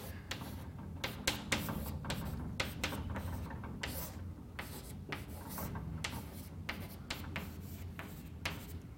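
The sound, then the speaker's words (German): Scratchy handwriting as an equation from a physics lecture is written out in full, many quick rubbing strokes in an uneven rhythm, steady and moderately loud with no talk. “der Vollständigkeit halber schreibe ich also das xt nochmal hin in seiner ganzen Form.”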